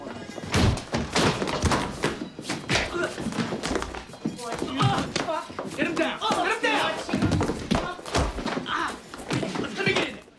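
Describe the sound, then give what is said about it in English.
Heavy thuds of blows as several men give a restaurant maitre d' a vicious beating in a bathroom, repeated dull impacts and slams mixed with voices throughout. “Sonny grabs the maitre d' and hustles him into a bathroom where he and the guys give him a vicious beating.”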